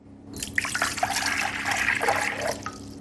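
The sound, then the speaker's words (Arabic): Cold water pours into a cup in a continuous, bubbling trickle for a little over two seconds. It then tapers off, with a faint drip at the end. “الكوبان متشابهان، نفس الشكل، نفس الحجم، نفس كمية الماء، لذا لا يوجد أي تفضيل. أولا أسكب الماء البارد، فقد أصغه جيدا.”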